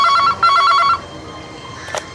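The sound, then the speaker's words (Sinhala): A telephone rings during an early-morning call, in two short sets of rapid electronic trilling bursts. The ringing then stops, leaving faint background noise and a brief click. “Nishadi උදෙන්ම ටානියගේ අම්මට call එකක් ගත්තා.”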